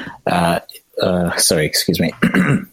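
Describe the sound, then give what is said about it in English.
Throat clearing with short, harsh rasps breaks into a person's speech. “sorry, you might have to edit that out. something got stuck in my throat.”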